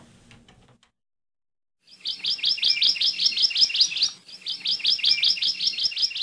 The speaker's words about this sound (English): In Ohia forests all over the Big Island, you can hear the song of the Hawaii Amakihi.